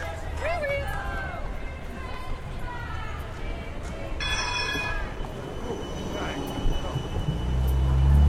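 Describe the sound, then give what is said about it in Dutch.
A tram pulls into a tram stop during a street demonstration, its wheels squealing in a high, thin tone midway through. Steady traffic noise runs underneath, with voices in the background and a low rumble swelling toward the end. “Ik zei nog, we lopen op de tramhalte. Verdomd is niet waar, als komt er een tram.”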